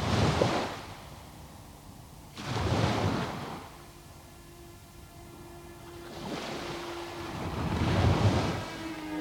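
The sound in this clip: Sea waves wash onto a beach in three broad surges of surf, each swelling into a loud, hissing rush and then ebbing to a low, steady murmur between them.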